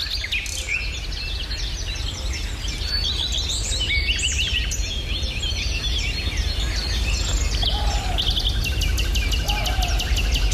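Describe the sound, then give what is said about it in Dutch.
Dense dawn birdsong from a nightingale and a common redstart in the Meijendel dunes, a continuous overlapping mix of whistles and trills over a steady low rumble of background noise. “Met de nachtegaal, de gekraagde roodstaart, kikkergekwaak en blaffende reeën.”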